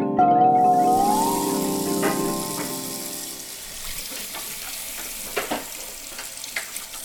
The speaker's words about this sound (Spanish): ten cuidado con el agua. Cierra la llave mientras enjabonas los platos.